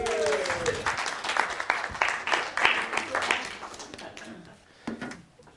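Audience applause welcoming a guest on stage: steady, dense clapping that tapers off near the end, swelling briefly once more before fading.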